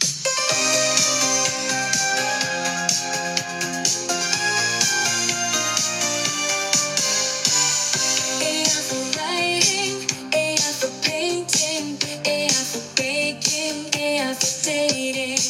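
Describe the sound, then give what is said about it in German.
An AI-generated 1980s disco-pop song plays for the whole stretch: a loud, dense, bright mix with a steady driving beat and continuous layered melody, with no talking over it. “Ich kann mittlerweile auch mit einigen wenigen Sätzen sogar einen Popsong generieren lassen.”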